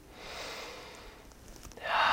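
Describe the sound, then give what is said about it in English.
A deep breath drawn in through the nose and let out through the mouth during a guided relaxation exercise: a long, soft, airy rush of breath, then a louder, fuller exhalation near the end. “just take a nice deep breath in through your nose and out of your mouth”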